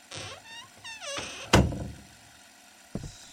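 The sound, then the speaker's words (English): Creaking from an old, poorly kept floor settling: a few strained, harmonic creaks shift in pitch, then a sharp heavy thud lands, followed later by a softer, shorter thump. “Swear I heard someone. Just outside the office. It was likely the floor settling. The floor does look old and ill-maintained.”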